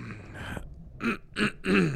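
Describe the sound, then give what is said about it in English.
Throat clearing: rough, noisy rasping gives way to a few short, gravelly voiced bursts in a quick, uneven rhythm. “let me clear your throat”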